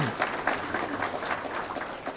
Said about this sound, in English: Brianna serves, give her a round of applause.